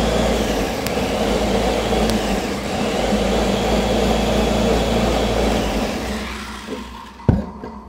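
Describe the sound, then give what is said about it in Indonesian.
An electric blender whirs steadily as it mixes honey, ginger and salt, a loud continuous motor drone that fades toward the end and finishes with a brief clunk. “Sama garam dikit. Lalu garam kita dikit. Blender saja.”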